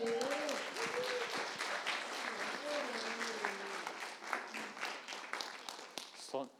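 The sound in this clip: A church house group applauds to welcome a speaker: steady, dense clapping throughout, with a voice talking over it early on, thinning toward a few final claps at the end.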